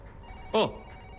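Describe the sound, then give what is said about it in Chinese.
A telephone rings once with a short, bright electronic burst whose tone slides downward, standing out briefly against a low, steady background. “我接个电话啊”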